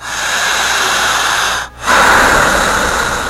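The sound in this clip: Deep, loud breathing during a hypnosis demonstration: two long, rushing breaths separated by a short silent pause, the second slightly stronger, with no talk over them.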